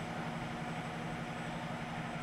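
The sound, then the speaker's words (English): A loud truck engine gives a steady, heavy low rumble with a droning hum. The level stays constant and does not swell or fade over the short stretch. “This truck is so loud. This audio is going to be pretty rough.”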